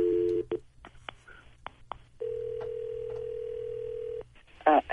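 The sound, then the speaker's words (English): Telephone tones sound while a call is placed: a short tone, a few soft clicks, then a long steady tone of about two seconds, ending in a brief louder burst. “So we're going to call her.”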